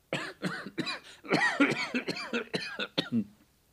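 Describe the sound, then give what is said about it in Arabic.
A persistent cough that no medicine has eased, heard as a long fit of many harsh, rhythmic bursts in quick succession, loud and with no talk over it. “يبدو أن مرضي لا دواء له. أبوك طبيب وعمك صيدلاني، ولم تعثر على دواء يخفف هذا السعال؟”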